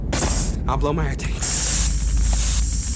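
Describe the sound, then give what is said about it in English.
A voice imitates an air tank being released, a sustained, loud hissing spray that follows a few spoken words and carries on steadily to the end. “I gotta get back to the ship. All right. I gotta blow my air tank.”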